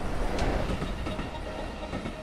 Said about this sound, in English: As a high-speed train races along the track, it pushes through the air in front of it.